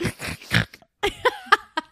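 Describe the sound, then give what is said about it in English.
A person snorting, several short, loud, piglike nasal snorts in quick succession with brief gaps between them, heard alone without talk. “Snorting, love that.”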